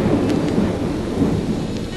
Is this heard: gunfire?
no